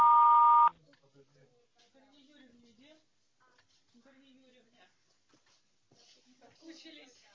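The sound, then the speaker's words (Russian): A single loud, steady electronic beep from an answering machine lasts under a second, signalling the start of a message. Faint voices talk quietly after it. “Вас приветствует автоответчик. Оставьте сообщение после звукового сигнала.”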